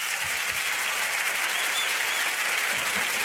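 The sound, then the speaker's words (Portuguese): Audience applause at the end of a show, dense steady clapping that holds at an even level throughout, with no voices standing out. “Aplausos. Aplausos de vocês.”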